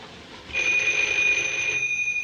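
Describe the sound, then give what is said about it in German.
A telephone rings in an office with nobody answering: one continuous high, bright electronic ring that starts abruptly, holds steady for over a second, then cuts off. “In Gastons Büro klingelt das Telefon. Niemand hebt ab.”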